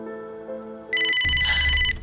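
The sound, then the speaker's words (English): A telephone rings with an incoming call: a bright, steady electronic ring tone sounds once for about a second, loud, over a low rumble, after a lower sustained tone. “Let me get it. Look, I don't know how you got this number, but you better stop calling.”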